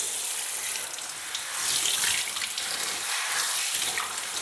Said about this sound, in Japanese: ほら、髪流すよ。下向いて。